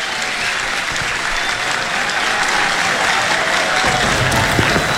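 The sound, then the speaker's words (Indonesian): A crowd applauds in dense, steady clapping that lasts the whole time, loud and even, with no voices standing out. “Panjang tepuk tangan.”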